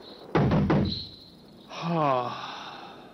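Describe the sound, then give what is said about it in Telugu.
A few quick knocks on a door at night, followed by a voice. “సరే, తలుపు కొడతాను.”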